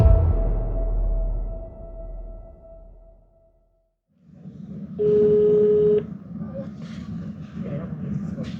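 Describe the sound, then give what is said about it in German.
A telephone call placed from a hotel. After a fading stretch of noise and a brief silence, a low line hum comes in, and a single steady ring tone sounds for about a second over it. “Wir rufen sie aus unserem Hotel an.”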